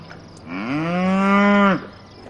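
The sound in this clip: A cow on a farm gives a single long, loud moo that rises slightly at the start, holds a steady tone, then breaks off sharply.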